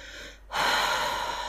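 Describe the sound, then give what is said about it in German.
A slow, deliberate exhale to release tension during a guided muscle-relaxation exercise: a brief quiet pause, then a steady, breathy rush of air lasting about a second, heard alone without talk. “versuch ganz bewusst die Anspannung auszuatmen und mehr in die Entspannung zu kommen”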